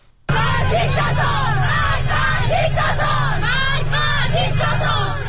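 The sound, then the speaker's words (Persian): Schoolgirls chanting slogans with their hijabs removed, in school and in the street. A loud crowd of young voices shouts in unison without a break after a brief quiet start. “صدای دختران دانش آموزی که با برداشتن حجاب در مدرسه و خیابان شعار می دهند.”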